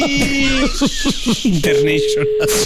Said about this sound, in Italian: Scusatemi, no, chiamo in diretta a Locarno Monti, che sono in ritardo.